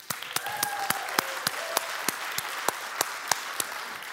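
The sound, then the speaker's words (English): A church audience applauds to welcome viewers at other campuses, a steady wash of clapping with sharper individual claps standing out throughout. “I want to welcome all of those watching in our other campuses as well. Uh, in Bothell, Castle Rock, Issaquah, Duvall. Can we uh, welcome them and give them a hand?”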